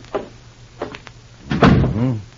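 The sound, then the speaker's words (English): A door is shut by someone who wants no interruptions: a few light clicks, then a heavier, fuller closing thud near the end. “Go ahead. I'll close the door. I don't want to be interrupted.”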